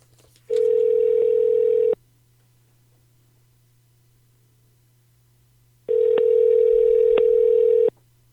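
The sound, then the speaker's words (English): Telephone line tone as a call is placed, two long, steady buzzing tones separated by several seconds of near silence, over a faint low hum. “Well, then we should call her right now. You want to call her? Dial her.”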